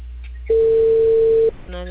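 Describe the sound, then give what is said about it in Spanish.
A steady mid-pitched telephone call tone sounds for about one second, flat and unbroken, with low background murmur before and after it. “A ver, espera, me estoy llamando a la de Tarapacá. Déjame que conteste.”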